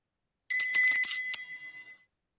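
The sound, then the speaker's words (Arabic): A bell rung in a stage play to summon a servant gives a bright, loud metallic trill. It rings clear for about a second and a half, then fades out. “حضرتك ضربت الجرس؟”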